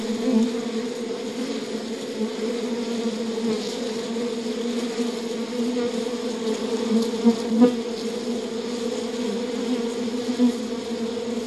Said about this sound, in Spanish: Ahora, abramos la colmena con cuidado. Mientras revisas cada panal, Percibe la delicada forma en que trabajan las abejas.